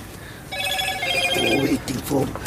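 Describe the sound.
A telephone rings inside a truck cab, a bright, repeating electronic ringtone that starts after a brief pause and keeps sounding under people talking.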